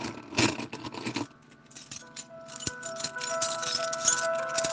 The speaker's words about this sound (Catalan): És un soroll de claus, Perquè cada un i cada una de vosaltres teniu una clau diferent.